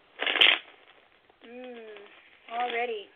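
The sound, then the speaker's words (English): Tarot cards being shuffled and laid out: a short, sharp papery riffle near the start, followed by two brief tonal vocal sounds. “all right, we're going to lay a card for you. The Hierophant.”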